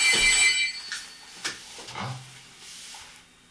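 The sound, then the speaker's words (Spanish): Telephone ringing with an incoming call to a radio call-in show: one short electronic ring burst at the start, then faint hiss and a few soft clicks. “Tenemos otra llamada. Parece que tenemos otra llamada.”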